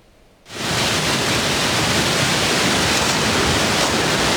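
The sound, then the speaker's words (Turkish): The Camili stream overflowing during heavy rain in Artvin Borçka: a roaring, dense rush of water that starts abruptly after a brief quieter moment and then stays loud and steady to the end. “Artvin Borçka'da etkili yağışla birlikte Camili Deresi taştı, birçok noktada toprak kayması meydana geldi.”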